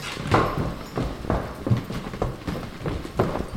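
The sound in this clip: Running footsteps make many quick, rhythmic thuds at an even pace, moderately loud throughout.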